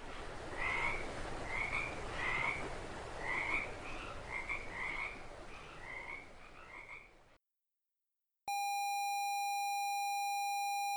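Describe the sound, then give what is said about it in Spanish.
A toad croaking in many short rasping calls with a regular rhythm over a hissing background for about seven seconds. A moment of silence follows, then a loud, steady electronic tone. “Sapo, sapito.”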